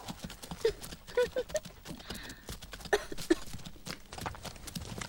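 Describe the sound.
Horse hooves clip-clopping as the horse is ridden: many irregular, hollow knocking beats that vary in loudness over a low, noisy background.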